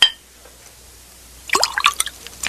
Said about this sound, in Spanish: Tenga esta copa, es mi copa. Sí, su majestad. Ahora, llénela de vino.